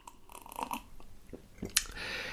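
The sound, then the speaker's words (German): Drinking green tea with ginger, honey and fresh mint, heard as a few faint wet sipping and swallowing mouth sounds, with a short sharper hiss near the end. “Ich muss mal trinken. Ich muss mal trinken. Ich darf mal trinken. Hm. Ähm, grüner Tee mit Ingwer und Honig und ein bisschen frischer Minze.”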